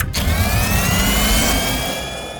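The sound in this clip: A submarine engine surges into turbo in a sound effect, with a loud, steady mechanical roar and whining tones that climb gently in pitch and then ease slightly at the end.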